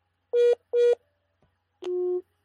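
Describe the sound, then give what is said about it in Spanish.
Telephone tones signal an incoming call: two short, identical beeps, a faint click, then one longer, lower steady tone. No voices. “está entrando una llamada telefónica”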